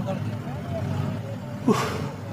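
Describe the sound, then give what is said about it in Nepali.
Car with milk cans loaded in the back driving off slowly: a steady low engine rumble throughout, broken by one brief knock near the end, with faint voices. “ल चलाउनुहोस् गाडी, मैले पछाडिको ढोका lock गरिदिइसकेँ, बिस्तारै लैजानुहोस् है।”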